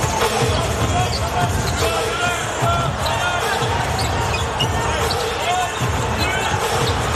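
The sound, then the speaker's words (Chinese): Basketball dribbled on a court during a professional game: steady, repeated thumping bounces under continuous crowd noise. “这球运球有点粘球了啊”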